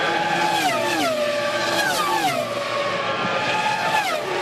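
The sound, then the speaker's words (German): Formula 1 racing cars from teams such as Ferrari, Mercedes and McLaren accelerate with a loud, high, continuous engine whine whose layered tones repeatedly sweep up and down as gears change, with no voices. “so klingen sie, die Rennboliden der Formel 1 mit den berühmten Rennställen von Ferrari über Mercedes und natürlich auch McLaren.”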